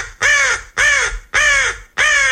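Four loud, harsh caws from a corvid, evenly spaced and each lasting about half a second, heard alone with no other sounds.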